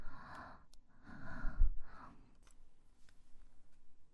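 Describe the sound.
Heavy breathing: three distinct, breathy exhalations in an even rhythm, followed by a quieter stretch with faint soft clicks and rustles.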